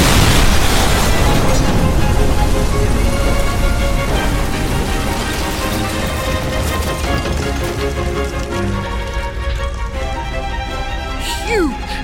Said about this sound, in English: huge deafening explosion. You are knocked what off of your feet.